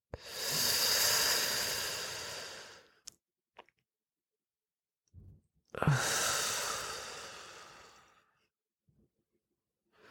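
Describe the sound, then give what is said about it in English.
Two long, deep breaths in and out during a guided breathing exercise, each a loud, airy hiss lasting a couple of seconds, separated by a quiet pause with a few small clicks. “Hold. Breathe out. Last time. Breathe in.”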